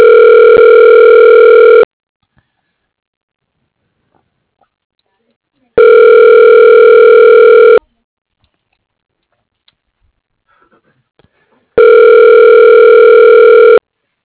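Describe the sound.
Ringing tone of a telephone call being forwarded to voicemail: three loud, steady electronic rings, each about two seconds long, separated by longer stretches of silence.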